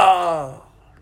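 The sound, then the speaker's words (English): A voice imitates a loud groan with a single short, voiced moan that starts strong and fades out within about half a second. “like a groan, and something like that”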